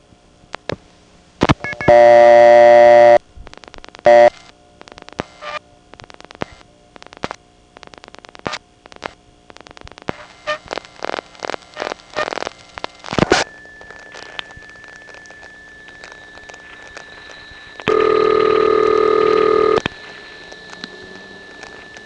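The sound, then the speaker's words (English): A telephone call is dialed into a crossbar No. 1 exchange. Loud steady tone bursts open and close the call, with rapid trains of dial-pulse clicks between them and no pauses between digits. A continuous high tone persists through the latter half. “Here's a call to a crossbar 1, dialed normally, without pausing between digits, and after the last digit is dialed, you'll hear the last few digits of RP.”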